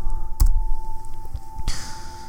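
Mouse clicks in a video game: a couple of sharp, short clicks stand out over a steady electronic hum and low background noise.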